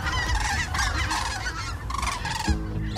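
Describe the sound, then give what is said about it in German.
Cranes call while flying overhead in autumn in Mecklenburg-Vorpommern, a dense, continuous chorus of overlapping honking, trumpeting cries that stays loud throughout. “Da fliegen die Kraniche über uns hinweg, schreibt Heike”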